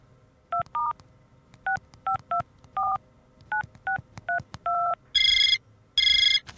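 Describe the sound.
Touch-tone dialing as someone calls their family: ten crisp, evenly paced keypad beeps, then two longer, louder ringing tones on the line.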